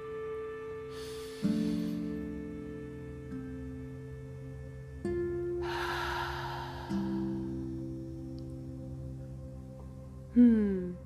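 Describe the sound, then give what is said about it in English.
A group's deep breath, drawn in and let out as two soft, airy swells of noise over steady, sustained musical tones, with a brighter tonal swell near the end. “Before we get started, let's all just take a deep breath.”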